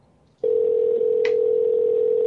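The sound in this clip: Telephone line tone during an unanswered call: a single steady mid-pitched tone starts abruptly after a brief quiet moment and holds unbroken, with a faint short click partway through.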